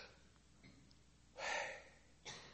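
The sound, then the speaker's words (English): A breath in, heard as a quick, sharp, airy intake like a soft gasp, followed by the start of a second short breath. Faint, with no talk. “Is as if God figured out a way that the very first breath that you breathe as a baby is this breath in.”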